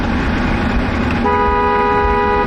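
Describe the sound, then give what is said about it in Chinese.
A car horn sounds as vehicles pass a revolutionary martyrs' cemetery in tribute. Road traffic rumbles, then a loud, steady, sustained horn blast starts midway and holds to the end. “所有经过东风革命烈士陵园的车辆都会鸣笛，表达对长眠于此的英烈们的深深敬意。”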